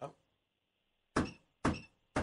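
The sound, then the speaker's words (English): Knocking on a door: a thud fades at the start, then after a pause three sharp, evenly spaced knocks follow, fairly loud against an otherwise quiet background. “Somebody knocking. Someone's knocking.”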